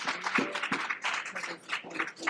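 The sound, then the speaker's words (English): Church audience applauding in praise of the Lord: uneven bursts of fairly quiet clapping, with scattered voices calling out among the claps. “Let's give the Lord a round of applause.”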